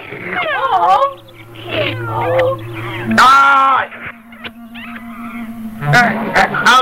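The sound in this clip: Cat meowing in a cartoon: several wavering, pitch-bending meows, some high and strained, over a low steady tone, with a louder harsh burst partway through.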